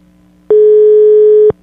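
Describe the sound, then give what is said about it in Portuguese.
A telephone ringback tone sounds while a call is placed from a studio: one steady, unbroken tone lasting about a second, heard alone and holding an even pitch from start to finish. “Você tá chamando, vamos ver.”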